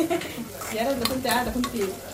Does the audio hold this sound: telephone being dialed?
no